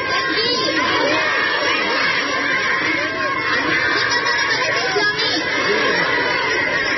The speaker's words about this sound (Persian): در گوشه ای از شهر قندوز نیز افرادی با استقبال از دولت موسوم به امارت اسلامی صدای الله اکبر سر دادند.